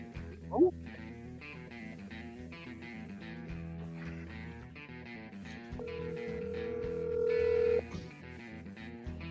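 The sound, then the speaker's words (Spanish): A telephone call rings out over background music: a steady, level ringing tone holds for about two seconds partway through. “No conozco ninguno, pero estoy llamando.”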